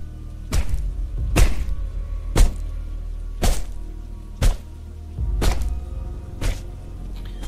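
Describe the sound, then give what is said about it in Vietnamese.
Heavy, dull chopping thuds from a butcher's blade hacking a body apart on a rainy night, seven evenly spaced blows at roughly one per second, with no voices. “tên đồ tể ngồi xuống chặt xác của Thái ra thành từng mảnh. Âm thanh ghê rợn vang lên trong đêm mưa.”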